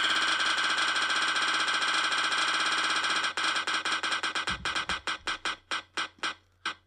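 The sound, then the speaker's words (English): A prize wheel spins with a rapid blur of ticking that gradually slows into separate, louder clicks spaced farther and farther apart until it comes to rest. “Give me the spinneroonie! Wheel of choices!”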